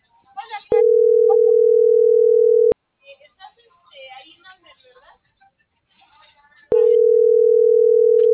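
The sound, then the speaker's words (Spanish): A telephone line tone sounds while a call fails to connect: two long, loud, steady mid-pitched tones, with a short gap of faint, broken speech-like sounds between them. “Por eso estaba marcando, pero no entraba la llamada.”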